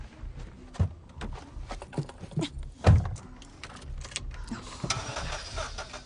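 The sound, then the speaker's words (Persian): Car engine cranking and straining as it is started, heard as a few uneven, rough mechanical bursts with one strong surge near the middle, over a low running rumble. “بس کن مامان، داری به موتور فشار میاری. باید یکم استراحت بهش بدی.”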